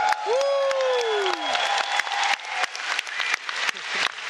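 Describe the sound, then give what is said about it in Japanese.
Audience applause rings out at the start of a 2016 convention event, a dense, loud, continuous clatter of many hands clapping, with a brief falling tone sounding over it early on. “何が起きてるの、何の拍手かな、カメラワークに拍手という感じで”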